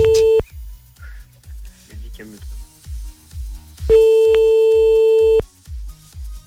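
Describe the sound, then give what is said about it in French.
A telephone call being placed, with a steady electronic ringing tone on the line sounding briefly and then again for a longer stretch, over a recurring low thumping beat. “on la rappelle encore un coup, quand même.”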